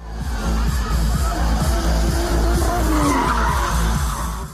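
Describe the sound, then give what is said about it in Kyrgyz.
Tires squeal and skid as a car drifts at a bikers' holiday, where car enthusiasts show off drifting, with a low engine roar underneath; the sound stays loud and continuous throughout. “Байкер досторун майрамы менен куттуктап, авто сүйүүчүлөрү дрифт өнөрүн көрсөтөт.”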